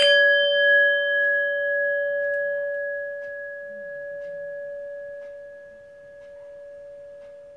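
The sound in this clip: A gong struck for a breathing meditation gives a single clear ringing tone that sustains for several seconds and slowly fades, with no talking.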